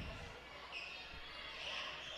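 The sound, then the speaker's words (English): A few faint, low thuds of a basketball dribbled on the court during a women's game. They sit under a steady background hiss. “Now Gilbert will dribble up to the top”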